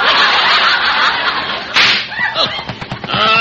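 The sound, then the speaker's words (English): Tire blowout sound effect from a car getting a flat: a single sharp, loud bang bursting out of a steady hiss, then quickly fading into softer, broken noise. “that was a flat. We have a flat.”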